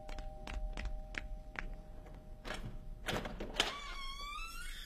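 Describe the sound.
A home's front door being opened for arriving visitors: a few soft knocks and thumps, then a sharper clack, followed by a thin, wavering squeal-like tone near the end, all fairly quiet.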